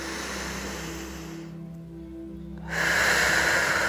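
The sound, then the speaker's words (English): Deep breathing in and out through the mouth during a guided relaxation exercise: a steady, breathy rush of air that dips briefly, then swells back louder for the next breath. “and out through your mouth. Do that again, nice and deep. And all the way out. Again.”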